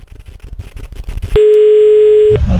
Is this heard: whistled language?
no